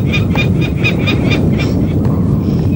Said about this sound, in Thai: ส่งเสียงร้องมีอยู่สองตัวตัวหนึ่งบินและส่งเสียงร้องอีกตัวหนึ่งก่ออยู่บนชะง่อนหินผาบนยอดสูงสุดของดอยม่อนจอง